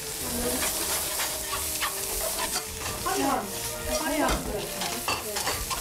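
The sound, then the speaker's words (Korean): Tofu sizzles in perilla oil as it is stir-fried in a pan, giving a steady, dense frying hiss broken by scraping stir sounds all the way through. “그래서 이제 두부를 이렇게 해갖고 줬어요. 이거 볶고 있어봐.”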